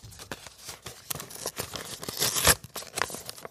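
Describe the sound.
A paper envelope is torn open in a series of crinkly rips and rustles. A loudest tear comes past the midpoint, followed by a few more crackling pulls.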